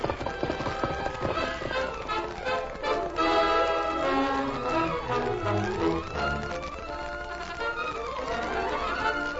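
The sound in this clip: Galloping hooves of the Lone Ranger's horse Silver race through a dramatized chase, with a fast, driving clip-clop rhythm under swelling music that stays loud for the whole stretch.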